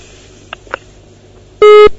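A phone-in call to a live TV and radio program drops. Two faint clicks are followed by one loud, steady busy-signal beep lasting about a third of a second.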